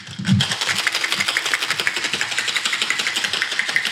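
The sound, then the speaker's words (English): A cocktail shaker worked hard for a sour cocktail such as a Trinidad Sour: after an opening thump, a loud, fast, even rattle of many rapid strokes continues without pause. “Oh, yeah. That's an intense shake. This is how I wish people shook when I taught them how to shake drinks”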